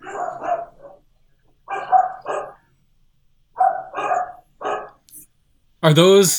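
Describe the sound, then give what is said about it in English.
Dogs barking in short clustered bursts of two or three barks, separated by quiet gaps, with a louder drawn-out vocal sound at the end. “Are those dogs in the movie, or are those your dogs? No, they're mine. Those are mine.”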